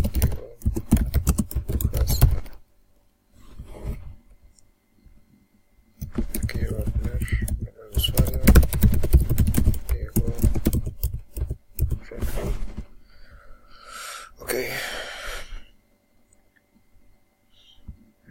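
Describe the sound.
Computer keyboard typing, as a name is entered into a user account form, comes in two long bursts of rapid, crisp key clicks separated by pauses, with a soft voice briefly near the end.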